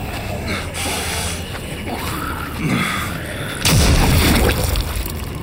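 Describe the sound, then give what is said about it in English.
A single loud boom, likely a gunshot fired as someone lunges in rage, bursts in abruptly after a stretch of low rumbling noise and stays loud and dense to the end. “Pull the trigger.”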